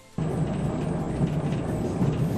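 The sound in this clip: Low rumbling interior noise of the Romantika train running between Belgrade and Sremski Karlovci. It cuts in abruptly after a brief quiet moment and then holds as a steady, deep, continuous drone.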